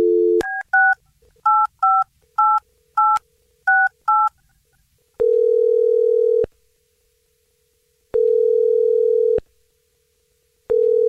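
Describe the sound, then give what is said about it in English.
Touch-tone dialing of a telephone number: a brief dial tone gives way to a quick run of short, paired electronic beeps, then three longer, lower steady tones with pauses between them. “Okay, I'm going to dial this number right now.”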